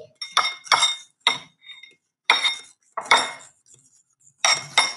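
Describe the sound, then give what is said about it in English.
A spoon clinks against a bowl while stirring a soupy cake-powder mixture: several sharp, bright clinks arrive in irregular bursts separated by short silences, with no talking. “I'm stirring. It's very, it's looking super soupy.”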